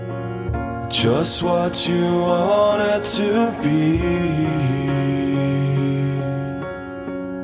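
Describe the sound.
A rock band plays a song with loud sung vocals over sustained, steady instrumental tones, marked by a few sharp percussive hits early on.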